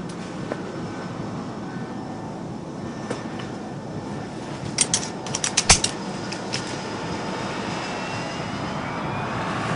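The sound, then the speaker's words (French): Airplane rolling down the runway on takeoff: a steady, broad engine roar runs throughout, with a brief cluster of short rattles and clicks near the middle, and no talking. “Ça y est, on décolle. Enfin, j'espère. Bon, ben, ça va. Il roule bien longtemps, je trouve.”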